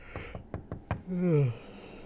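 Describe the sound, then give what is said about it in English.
Knocking on a door: five quick, sharp raps in an uneven rhythm, moderately loud. “Who the hell's fucking knocking my door?”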